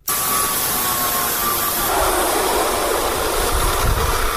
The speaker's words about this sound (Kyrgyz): Таң атпай короосунда мындай ызылдаган үнү угулган Сары айылынын тургуну Казак Абдыкеев колундагы станоктор менен айылдаштардын шаймандарын оңдоп берип жатат.